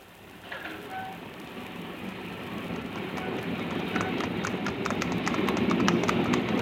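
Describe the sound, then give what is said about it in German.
An express train departs from a station, a broad rumbling roar with rhythmic clatter that builds steadily louder as it gathers way, alone without voices. “Achtung, Achtung, der Schnellzug nach Southampton fährt ab.”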